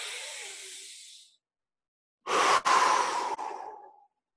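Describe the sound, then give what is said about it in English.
A deep, intentional breath: one long, airy breath sound, a short silence, then a second, louder and longer breath that fades out. “this is what taking a breath sounds like.”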